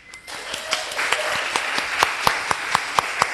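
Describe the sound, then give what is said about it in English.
A live audience applauds at the Gray Restaurant in Savannah. Dense clapping builds quickly, then thins into fewer hands, leaving many sharp, evenly spaced individual claps toward the end. “And we have a live audience. Let's hear from you guys.”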